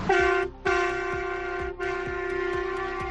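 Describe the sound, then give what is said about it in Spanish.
Tractor horns blare at a farmers' protest in Logroño, where about thirty tractors rolled through the streets. The loud, sustained, chord-like honking breaks off briefly twice, with a steady low rhythmic thumping beneath it. “Están hasta los mismísimos, así lo afirman, el sonido de esos 30 tractores en Logroño.”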